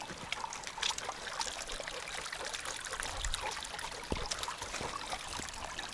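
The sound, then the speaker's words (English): Small babbling brook on a mountain loop trail near Dahlonega, Georgia, with water trickling and splashing over stones. A steady, fairly soft bubbling wash continues throughout, without voices. “To take a little break in the stream.”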